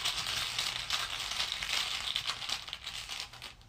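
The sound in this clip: Faint crinkly rustling as a game token is pulled out, with a dry, continuous scrunching and shuffling that stays quiet and steady without voices.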